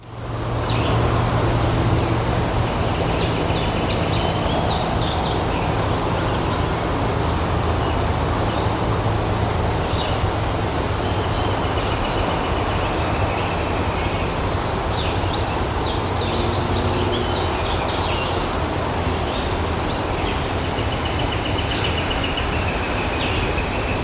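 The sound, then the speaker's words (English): A hermit thrush sings several high, fluting song phrases separated by pauses over a steady background hiss. “Hermit thrush.”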